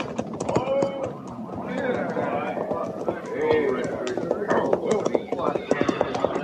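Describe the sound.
A cavalry rider's horse arrives at a run, its hooves making a quick, steady clip-clop rhythm of many strikes that continues without a break.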